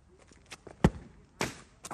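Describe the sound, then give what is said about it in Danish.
A football lying on the ground is kicked: one sharp, heavy thud stands out, with a second strong knock and a few fainter scuffs and taps around it. “Der ligger en fodbold. Ja, det er det. Den har lyst til at sparke den.”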